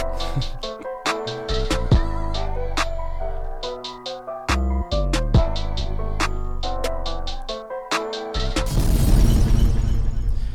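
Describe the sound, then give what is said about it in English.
A short sound-effect jingle plays: bright plucked, piano-like notes and punchy percussive hits in a bouncy rhythm. It ends in a loud, noisy, crashing burst. “Yeah man, we might as well get a drop out of the way.”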